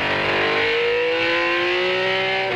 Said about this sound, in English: And brake all over the road for the hairpin, because you have to slow down for the hairpin anyway. Accelerate smoothly.